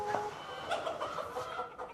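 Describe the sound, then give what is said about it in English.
A cockerel gives a few short, quiet clucking calls over low background noise. “Where's that bloody cockerel?”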